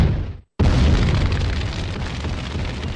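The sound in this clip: An explosion sound effect: after a brief moment of silence, a sudden loud boom breaks into a sustained, heavy rumbling roar. The roar stays loud and dense and eases only slightly toward the end.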